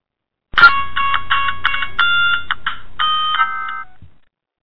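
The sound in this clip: An incoming phone call rings in on a radio call-in show as a bright electronic ringtone. Many quick tonal notes form a chirpy melody that plays loud and alone for a few seconds before stopping.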